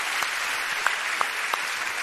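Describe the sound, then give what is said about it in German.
Crowd applause for a performer, an even, steady wash of clapping at moderate volume with a few sharper claps standing out. “jetzt wäre der Applaus für Liz gut”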